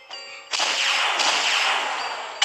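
A video game gunshot rings out: a short ringing tone opens, then a loud, sustained burst of blast noise lasts about two seconds and ends in a sharp final crack.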